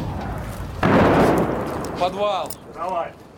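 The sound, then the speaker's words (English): A Russian artillery shell explodes with a sudden heavy boom that decays into a rumbling tail, followed by a voice speaking in short bursts. “Russian guns are so close you can hear the whole arc of their shells.”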